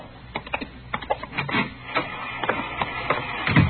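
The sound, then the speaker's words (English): An IBM punch card machine processes a run of cards, giving a steady, dense mechanical clatter of irregular clicks and knocks with occasional heavier thumps, continuous throughout and without talk. “She's running all the cards on previous shooting through the IBM machine. She ought to be through about now.”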